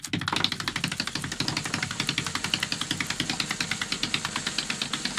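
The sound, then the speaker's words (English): A prize wheel spins, its pointer clicking against the pegs in a rapid, evenly spaced run of many crisp ticks that continues steadily to the end. “Spin that wheel. Here we go.”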